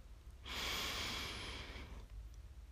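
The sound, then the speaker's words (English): One long, calming breath drawn in through the nose during a guided meditation: a soft, airy hiss lasting about a second and a half, heard alone. “I just want to invite you to take a calming breath in through your nose.”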